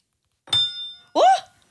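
A spoon knocks once against a table, giving a sharp clink and a high, bell-like ring that fades over about half a second; a brief vocal sound follows.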